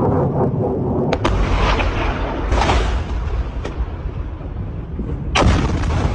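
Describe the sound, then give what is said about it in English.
An Iranian missile crashes and explodes at an air base in Jordan, heard as a loud, continuous, roaring rumble broken by a few sharp, cracking blasts. “the terrifying sound of an Iranian missile crashing and exploding at the Mufawak Salty Air Base in Jordan”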